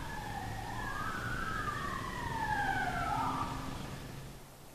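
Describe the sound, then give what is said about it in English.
Wailing siren, either a police siren or a home alarm, heard from inside a church, two overlapping tones sweeping slowly up and down, fairly faint and swelling slightly before easing off. “Is that a police siren or a home alarm?”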